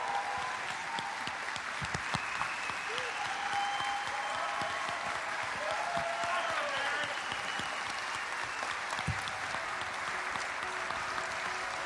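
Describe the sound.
A church audience at Calvary Church Santa Ana applauding to welcome its new senior pastor, with dense, sustained clapping from many hands that stays steady throughout.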